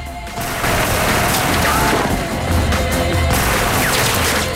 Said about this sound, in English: He sprays the market with rapid fire from his machine gun, sending produce and cartel members flying.